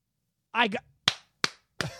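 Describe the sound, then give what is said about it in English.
A mocking slow clap: a brief vocal sound, then three sharp, evenly spaced hand claps, each crisp and quickly decaying. “I got to give you guys the Hollywood 1969 moon landing fucking clap. You guys made that shit look real.”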